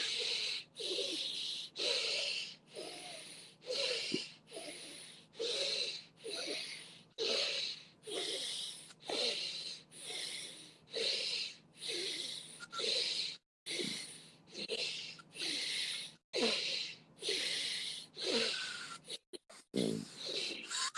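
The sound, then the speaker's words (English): Deep belly breathing during a guided breathing exercise: many steady, rhythmic breath cycles with an airy, slightly wheezy hiss, each breath separated by a short quiet gap. “Feel the belly rise and fall on each breath. Again, hand to belly if it helps. Feel the belly fill up and deflate, fill up and deflate.”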